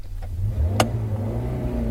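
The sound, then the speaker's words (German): A car drives away from a farmyard in the rural Münsterland, its engine a steady low hum with a single sharp click partway through, and no voices. “Ich verlasse den Hof, fahre zurück durch das Münsterland”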